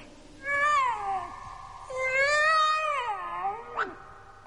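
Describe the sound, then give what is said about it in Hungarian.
A tomcat meows in two long, drawn-out cries with wavering pitch, the second longer than the first, followed by a brief sharp sound at the end. “Kedves kandúr, merre van a gazdád?”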